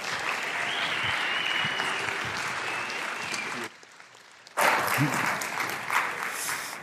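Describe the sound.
Audience applause welcoming a speaker to the stage at a morning service: steady, full clapping that dips into a brief lull, then resumes louder and carries on.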